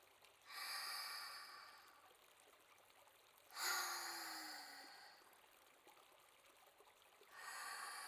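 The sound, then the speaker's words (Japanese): Deep breaths taken before soaking in an herb-scented spring, faint airy swells, three in all, each rising and fading over a quiet background. “浸かる前に一度深呼吸しましょう。では大きく吸って、”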